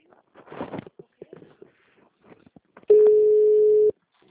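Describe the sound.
A telephone line tone on a call that goes unanswered and does not ring: one steady, unbroken mid-pitched beep of about a second, sounding after a short stretch of talk.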